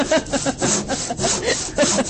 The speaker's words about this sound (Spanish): Vos sabés que a propósito del serrucho que escuchábamos en el fondo.